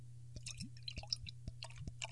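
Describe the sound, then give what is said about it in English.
Beer poured from a capped bottle into a goblet, heard as soft, faint liquid gurgles and small clicks over a steady low hum. “this one actually has a cap on it. Okay. And we shall pour.”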